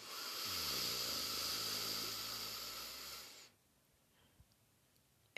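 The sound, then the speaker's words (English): A slow, soft inhale through the nose during a relaxation breathing exercise, a long airy hiss lasting a few seconds that stops abruptly, leaving near silence. “Breath four, nice fresh inhale through the nose.”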